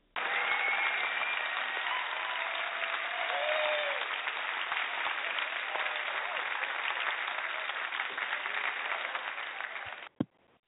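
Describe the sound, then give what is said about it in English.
Applause from an audience, a sustained dense clatter of many hands clapping at an even level, ending abruptly with a single sharp knock. “Now, right now, we just gave a hand.”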